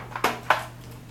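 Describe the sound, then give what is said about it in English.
Two sharp plastic clicks as the button on the front of an electronic pill box is pressed and its lid lifts, over a faint steady hum. “This one's ready for us, so we're going to press the button on the front of the box to lift the lid.”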